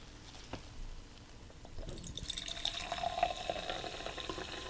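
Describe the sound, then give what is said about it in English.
Black cherry soda fizzes in a faint, steady hiss of bubbles that grows louder and busier about halfway through, with no talk. “It's a loud soda.”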